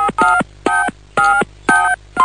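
Telephone keypad dialing tones ring out as a steady run of short, evenly spaced beeps, about one every half second, bright and loud with no voices over them.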